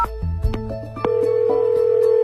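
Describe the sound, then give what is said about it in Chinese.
Telephone ringing tone during a call: after a few brief clicks and low knocks comes a single steady mid-pitched beep, held unbroken for over a second. “我打个电话问问什么。嘟嘟嘟嘟嘟。”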